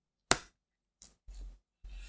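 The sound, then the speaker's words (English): Knives are handled and played with up close: one sharp metallic click is followed by three softer, brief handling noises, all faint and with no talk. “I'm just playing with it now. Quit playing with my knives.”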